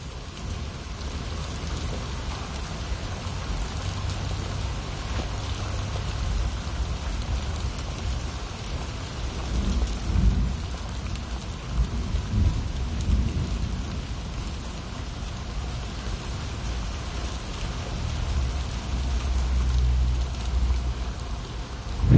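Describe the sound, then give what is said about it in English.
Rain falls steadily on a rainy day, a continuous even hiss of drops with a soft low rumble underneath, holding at a constant level throughout with no voices. “As we listen to the rain.”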